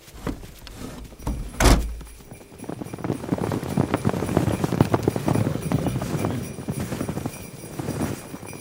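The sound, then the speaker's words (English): Hooves of a herd of excited baby reindeer galloping, a dense run of many rapid, overlapping thuds building after one heavy thump early on. “a herd of excited baby reindeer tearing towards the Elves' workshop?”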